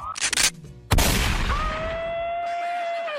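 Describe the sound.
A voice imitates gunshots from a police pistol: a few quick, noisy mouthed bursts, then a louder burst that trails into a sustained, high voiced tone.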